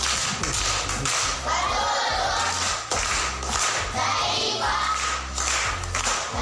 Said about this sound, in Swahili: Wamepata. Makofi kwa mjomba.